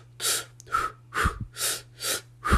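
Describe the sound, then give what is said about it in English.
Rhythmic breathing follows an in-for-two, out-for-two pattern: six sharp, breathy bursts in an even pulse, each separated by a brief pause, with no talking. “with my breathing pattern, with that in for two, out for two”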